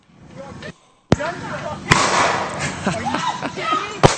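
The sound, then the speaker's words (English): A man fires three loud, sharp gunshot cracks as warning rounds in a residential subdivision. The shots are irregularly spaced, and agitated shouting voices fill the gaps between them. “So we got video of a guy squeezing off a few warning rounds.”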